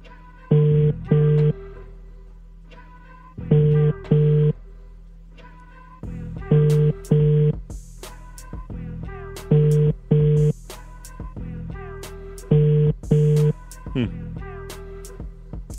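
A phone call rings out with double-burst ringback tones. Five pairs of loud, mid-pitched buzzes repeat in a steady rhythm about every three seconds, with fainter sound in the gaps.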